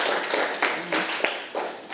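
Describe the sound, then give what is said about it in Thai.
Classroom students clapping for classmates who answered, a brief moderate patter of hands with a few sharper claps standing out unevenly. “ปรบมือเพื่อนทั้งสามคนที่ตอบค่ะ”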